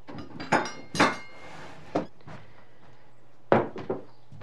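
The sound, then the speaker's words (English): Knives are set into a wooden knife block on the top shelf of a kitchen cabinet, giving five sharp clinks and thunks in an irregular rhythm, with a longer pause before the last two. “Liza opens a cabinet and sets knives in a knife block on a top shelf.”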